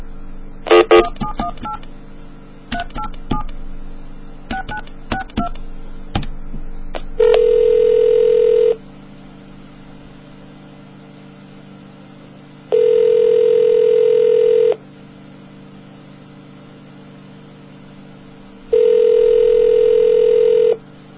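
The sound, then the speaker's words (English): A telephone number is dialed as a quick string of touch-tone beeps. A steady electronic tone then follows in three long bursts, separated by quiet gaps. “You want to just dial it or talk about it first? Just dial it up.”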